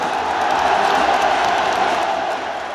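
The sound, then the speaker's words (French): A stadium crowd at Roazhon Park roars for Paul Pogba's entrance, a loud, sustained wall of cheering that holds steady before easing slightly at the end. “Le Roizen Park l'acclame comme rarement un joueur adverse ne l'a été.”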